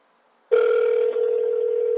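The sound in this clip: Ringback tone from a smartphone placing a call: a single steady electronic tone, loud and clean, lasting about a second and a half against silence.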